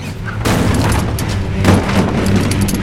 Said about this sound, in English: picks up the shotgun. He fires at the hooded man outside the door.